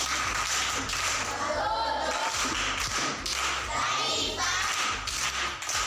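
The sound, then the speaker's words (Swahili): Classroom applause from a school class, a continuous loud patter of clapping mixed with thuds and voices, holding steady for about six seconds. “Makofi kwa mjomba.”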